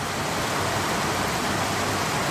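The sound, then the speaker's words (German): Steady rain falling in Costa Rica, a dense, even hiss with no separate drops standing out and no voices, holding at the same level throughout. “Es regnet in Costa Rica. Endlich.”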